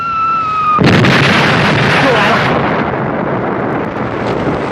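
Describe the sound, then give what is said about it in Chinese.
Artillery fire during a battle: a sudden heavy blast breaks in about a second in, then a loud, sustained rumbling roar of shelling continues to the end. “敌人炮火封锁的厉害，老乡们上不来”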